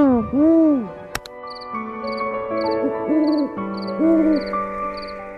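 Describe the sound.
A Eurasian eagle-owl gives a few deep, rounded hoots, each swelling and dipping in pitch, set against sustained tonal notes and a sharp click.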